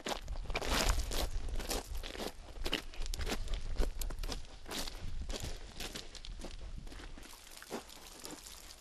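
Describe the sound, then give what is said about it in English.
Crunching footsteps on a long hike keep up a steady rhythm of many brisk steps, with no voices, only the scuff and crackle of the ground underfoot. “I've been walking for 3.5 hours now. I think I've walked a total of 10 or 12 kilometers.”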